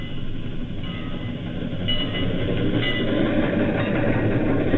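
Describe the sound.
Train running on rails: a loud, continuous rumbling roar with dense low-end noise and faint tonal whines above, steady throughout without pauses.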